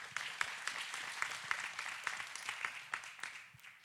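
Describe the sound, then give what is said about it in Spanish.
Applause at a youth question-and-answer church night: a faint, steady patter of many hands clapping that thins out a little toward the end. “Un aplauso, un aplauso.”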